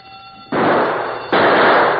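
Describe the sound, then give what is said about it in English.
Two gunshots ring out in an old-time radio crime drama, less than a second apart. Each is a loud, sharp blast followed by a long, noisy, ringing decay. “Somebody running that way. Shoot, Martin.”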